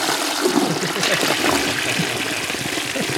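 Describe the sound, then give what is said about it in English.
Toilet flush: rushing, gurgling water with splashing and trickling that runs steadily for about three seconds, with people talking over it. “Oh, that poor toilet. Is that a tea or a flush? That's a flush.”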